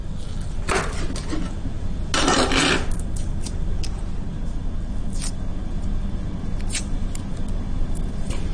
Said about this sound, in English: So I just crush the garlic, take the skin off by just pressing it against the back of a knife.